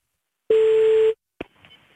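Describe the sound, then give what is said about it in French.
A telephone call being dialled: a single steady electronic tone sounds for about half a second, then cuts off, followed by a brief click and faint line noise. “On appelle tout de suite ta maman qui devrait être ravie de cet appel.”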